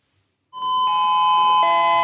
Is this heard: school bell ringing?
yes